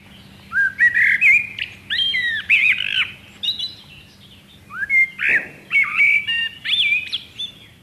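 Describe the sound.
A songbird sings two verses of mellow whistled notes that leap up and down in pitch, each verse lasting about three seconds with a short pause between them. The singing is loud and clear against a quiet background.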